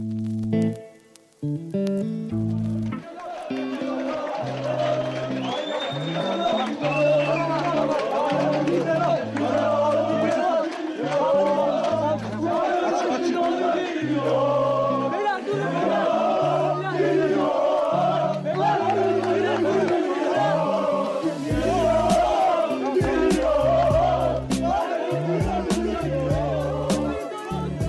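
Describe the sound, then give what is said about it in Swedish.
Galatasaray football fans give a chaotic welcome to an arriving player at Istanbul airport in June 2007: a dense crowd chants and shouts in rhythmic bursts, loud and continuous throughout. “Det ni hör här är Galatasaray-fansens kaotiska välkomnande av Tobias Linderoth när han precis landat i Istanbul i juni 2007.”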